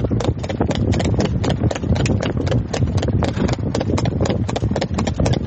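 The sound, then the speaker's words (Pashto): Hooves of a horse walking on a road, with many rapid, sharp clip-clops in a steady, brisk rhythm, loud and unbroken throughout. “دغه اس قیمت چې کوم دی هغه پاکستانی روپو کې 14 لک دی دغه په سرک روان دي تاسو به اوري”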